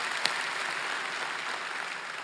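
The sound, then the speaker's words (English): Applause from the audience at a Mother's Day church service on the Keller campus: steady, dense clapping that holds at an even level throughout, with one sharper clap near the start. “Could y'all put your hands together with me to welcome all of those that are watching online?”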